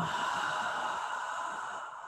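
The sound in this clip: A long, steady exhale after a deep inhale during a guided relaxation on the floor: a soft, breathy rush of air lasting about two seconds that fades slightly at the end, with no talking.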